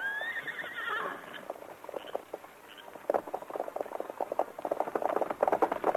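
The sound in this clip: Horses Silver and Scout in a Lone Ranger drama: a whinny with wavering pitch opens, then many quick hoof clip-clops patter on, growing busier toward the end.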